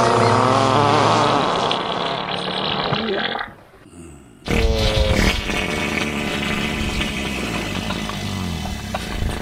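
A wet fart sound effect blasts out loud and sputtering, a thick, broad rasp that breaks off briefly near the middle, then resumes just as coarse and continues to the end.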